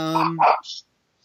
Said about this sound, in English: I have a little temple dog having a moment here.